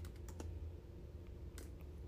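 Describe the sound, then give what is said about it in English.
Faint typing on a computer keyboard: a few soft, scattered key clicks over a steady low hum. “let's just try typing in like full moon”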